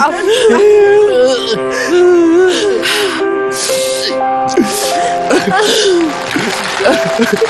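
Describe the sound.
A young girl whimpers and cries continuously, with wavering, sobbing wails that rise and fall in pitch and short gasping breaths between them. Other voices can be heard around her.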